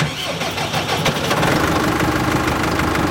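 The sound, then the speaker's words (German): Tractor engine running with a mower attached for haymaking, a loud, steady rumbling drone that holds evenly throughout with no breaks or voices. “Wir sind heute voll dabei beim Heigen. Also wir fahren heute mit dem Mähwerk. Das ist einmal die allererste Arbeit.”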